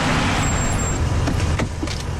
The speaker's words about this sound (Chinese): 西恩发动汽车